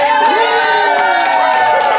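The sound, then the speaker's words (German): Crowd cheering for a Gryffindor goal in a Quidditch match, a brief loud burst of shouts and whoops from many voices. “Tor für Gryffindor. Tor für Gryffindor. Jubelrufe für Gryffindor. Füllten die kalte Luft.”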